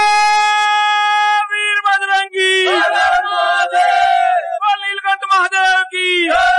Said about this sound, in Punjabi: ਮੰਦਰਾਂ ਵਿਚ ਸ਼ਿਵ ਭੋਲੇ ਦੀ ਮਹਿਮਾ ਦਾ ਗੁਣਗਾਨ ਲਗਾਤਾਰ ਚੱਲ ਰਿਹਾ ਹੈ ਅਤੇ ਮੰਦਰ ਸ਼ਿਵ ਭੋਲੇ ਦੇ ਜੈਕਾਰੇ ਨਾਲ ਗੂੰਜ ਰਹੇ ਨੇ।